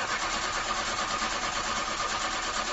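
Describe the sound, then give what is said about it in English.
A car engine struggling to start, cranking with a steady, unbroken grinding whir that is loud and even throughout, with no voices. “When your car sounds like this,”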